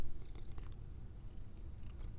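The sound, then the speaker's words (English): A cat purrs steadily in a low, continuous rumble that stays soft and even throughout the short stretch. No voices. “That's purring.”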